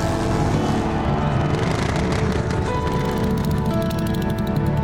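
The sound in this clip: A motorcycle engine roars continuously and loudly, a dense, steady drone with a slight wavering in its tone.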